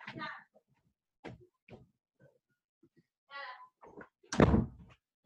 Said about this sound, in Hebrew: רק לסגור את הדלת